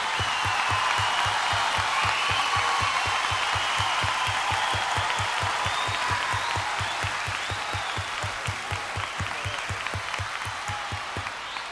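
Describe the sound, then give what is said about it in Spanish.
Audience applause for a female guest performer on an evening show: dense, steady clapping that holds at an even, fairly loud level for the whole stretch. “Aplauso para ella, muchas gracias.”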